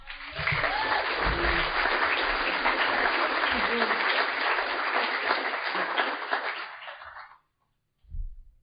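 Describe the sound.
An audience applauds to welcome a speaker. The dense clapping holds steady for about seven seconds and then stops abruptly, followed by a brief low voice.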